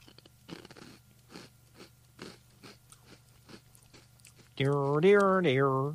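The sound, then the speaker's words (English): Crunching and chewing of tiny Anpanman Age Senbei rice crackers, with about eight sharp, rhythmic crunch bursts. A voiced, hummed sound of approval follows at the end. “Ooh, and then nice teeny bitty crackers. So I'm going to help myself to a couple of these now. Anpanman Age Senbei.”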